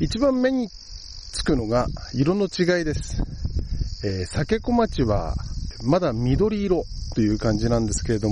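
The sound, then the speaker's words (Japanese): Cicadas buzz beside a sake-rice paddy at the forest's edge in late summer, a steady high-pitched drone that runs unbroken under someone talking for the whole clip. “今もセミの声が聞こえてますね。”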